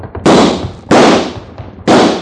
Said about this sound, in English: Come on, shoot at the lamp.